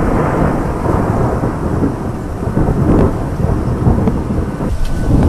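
Heavy thunderstorm with dense, steady rain and deep rolling thunder, loud and continuous throughout, with no talk.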